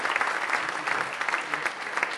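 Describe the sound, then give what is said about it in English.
Audience applause for schoolchildren at an end-of-school-year event: dense, steady clapping from many hands, evenly loud throughout with a light rippling texture. “let's give all the boys and girls a big round of applause for everything they've done today and for all the hard work you've done all year.”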